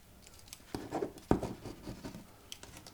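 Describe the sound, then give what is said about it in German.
A ballpoint pen scratches across paper while a parcel delivery is signed for, making a few short, dry strokes of uneven length, with one sharper, louder stroke near the middle. “Dann bitte hier unterschreiben. Oh, Kuli.”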